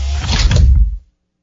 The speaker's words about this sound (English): Charza backed away, and the hatch closed.